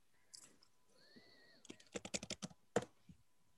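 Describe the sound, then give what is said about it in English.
Typing on a computer keyboard while logging into Facebook and entering a password: a quick, irregular burst of many faint key clicks, with no voices. “I typed my password wrong.”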